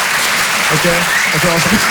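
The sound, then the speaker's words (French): Live audience applause, a dense, steady wash of clapping that holds at an even level for two seconds while a man talks over it. “Qui pense par applaudissement avoir le sens de l'humour, histoire qu'on capte un peu l'ambiance, faites voir.”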